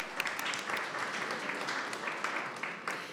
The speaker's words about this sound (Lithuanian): Paplokime. Aplausos.